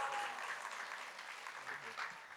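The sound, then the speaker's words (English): Audience applause greets a speaker brought onto a stage at a presentation event: an even, sustained patter of clapping with faint voices or cheers mixed in. “Give her a robust round of applause.”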